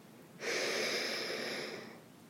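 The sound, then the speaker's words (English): A slow, deep breath in: one steady, airy inhale that starts abruptly, holds an even hiss for over a second, then tapers away quietly, with no talk. “now we're going to take one more breath in”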